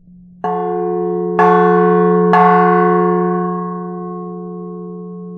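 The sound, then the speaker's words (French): Bell struck by its swinging internal clapper, ringing out in three clear strikes about a second apart, each adding a bright metallic tone over a sustained hum that slowly decays. “C'est la tige avec une boule qui se trouve à l'intérieur de la cloche et qui vient frapper la cloche quand la cloche se balance. Et c'est ça qui, après, vient donner le son de la cloche.”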